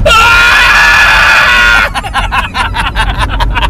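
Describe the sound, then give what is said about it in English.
A voice imitates the shrill squeal of a severed arm's stump being cauterized with a burning log, a loud, sustained high-pitched scream lasting about two seconds and then breaking into a jumble of several voices. “He's cut off your arm and he's sticking a burning log onto your stump. All right, let's go with the cut off. It goes that. Okay, it's pretty good, yeah. And then the cauterization, I think, would be like a squeal.”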